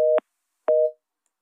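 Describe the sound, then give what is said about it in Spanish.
A telephone busy tone after a dropped call sounds as two steady mid-pitched beeps separated by a short silence. “se cortó la llamada, en un momento vamos a hacer conexión”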